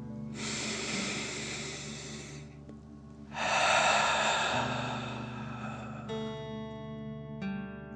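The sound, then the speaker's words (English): A deep breath is drawn in and then pushed out through the mouth: two long, airy rushes separated by a short pause, with soft sustained musical tones underneath that continue after the breathing stops. “Deep breath in and out.”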